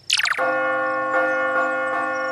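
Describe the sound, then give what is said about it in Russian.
A bell is struck once with a bright metallic clang, then a rich, sustained ringing tone hangs on and swells slightly a few times as it keeps sounding. “Теперь хоть в колокол звонить можно.”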